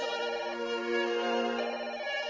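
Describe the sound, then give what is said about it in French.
A telephone ringing in a steady, continuous electronic trill that holds at an even level for the whole clip, with no voices. “et puis le téléphone qui sonne.”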